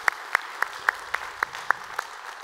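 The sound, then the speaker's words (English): A church audience applauds to welcome others. The clapping is steady and even, with sharper accented claps landing in a regular beat throughout, and no voices. “So if you would, here at North Garnett, put your hands together, welcome them into our time of study here today.”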